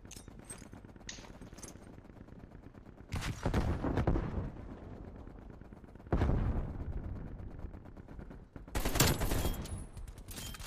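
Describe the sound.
Gunfire in a shooting video game comes in three loud rattling bursts of rapid shots over a steady background rumble, with no talking.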